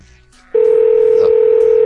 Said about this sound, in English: I love the Google Voice ringing.